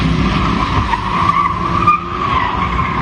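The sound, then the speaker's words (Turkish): Tire squeal from cars drifting on a residential street in İzmir, four cars zigzagging: a loud, sustained screech that wavers in pitch over a steady engine rumble, running the whole time without pause. “Sokağı piste çevirdiler, drift attılar. Gürültüleriyle mahalleliği canından bezdirdiler.”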